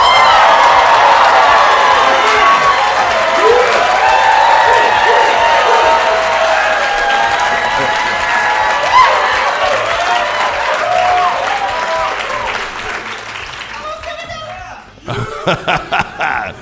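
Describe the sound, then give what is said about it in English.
Live audience applause and cheering at a university college in Beijing: a dense, steady wash of clapping and crowd noise that gradually thins and drops out near the end, followed by a few brief separate bursts. “Let's hear you Schwarzman scholars and other friends make some noise.”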